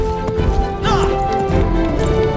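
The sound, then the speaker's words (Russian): Prince Philip's horse gallops through a forest in Maleficent: Mistress of Evil, with loud, rapid hoofbeats pounding continuously and a sharp crashing hit partway through. “Конь Филиппа галопом скачет сквозь лес.”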